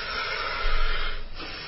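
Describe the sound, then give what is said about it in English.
Deep inhaling by women getting ready for a breath-holding contest: a steady, airy hiss that swells louder through the middle of the breath, then eases back down. “The ladies are now beginning. They're still inhaling, actually.”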